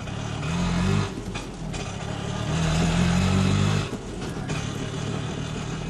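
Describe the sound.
An auto rickshaw engine runs with a steady, rough low drone and no talk over it.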